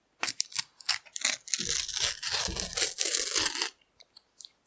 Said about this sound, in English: I can't even get out. Get it out of the packet. I'm struggling.